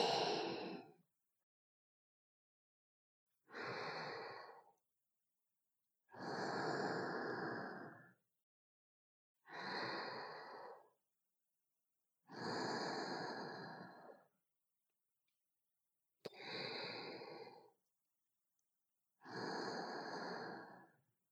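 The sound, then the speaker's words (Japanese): Slow, soft human breathing: seven unhurried inhales and exhales, each lasting one to two seconds. Long quiet pauses separate them in an even rhythm, with no other sound. “吐いて、吸って、吐いて、”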